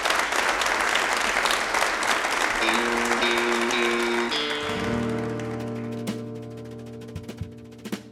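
An audience applauds a band at a live radio show in Lexington, with loud, dense clapping at first. The clapping fades as sustained instrumental notes come in, and the notes then carry on alone.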